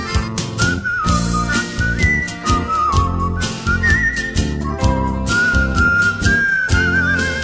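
Melodic whistling in a Portuguese-language song about a taxi driver known for whistling: a clear, high tune of sliding notes carried over loud, full band accompaniment with a steady rhythm.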